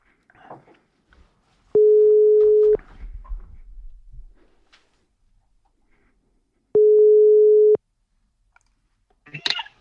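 Two steady telephone ringing tones sound on the line as a call connects. Each mid-pitched tone lasts about a second, separated by a pause of several seconds, with faint clicks and rustles around them.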